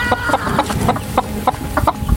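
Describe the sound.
Chickens cluck over and over, with many short, sharp clucks repeating at an uneven rhythm above a steady, noisy background.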